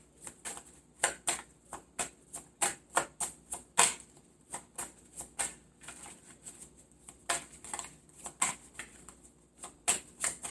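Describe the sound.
Playing cards are dealt one after another in a steady, quick rhythm, each card giving a crisp papery snap, with many snaps in a row.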